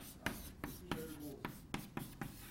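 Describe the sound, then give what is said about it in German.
A pen writing an author's name on paper: a quiet series of short, scratchy strokes in an uneven rhythm, with soft rubbing between them. “Dann schreibe ich das gerade noch an.”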